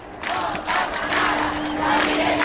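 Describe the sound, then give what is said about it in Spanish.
Crowd cheering and applauding at the Virgen del Carmen procession in Puerto de la Cruz as the statue is carried onto a boat, a continuous, excited roar of many voices and clapping that stays loud throughout. “Niños, gente saltando, arrancan los aplausos”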